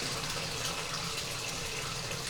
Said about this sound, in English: Let's turn this water off.